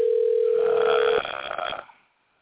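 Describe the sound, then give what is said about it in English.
A telephone rings with a single steady electronic tone lasting just over a second, followed by a short stretch of noisy rustling that fades into silence. “Well, we've got phones ringing”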